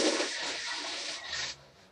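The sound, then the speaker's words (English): A toilet flush: a rushing, hissing wash of water holds at moderate loudness for about a second and a half, then cuts off abruptly to a quieter trickle. “was that a little toilet flush, PG? No. That was a family member going to the restroom.”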